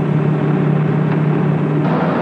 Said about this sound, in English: And the giant Impala groans into action.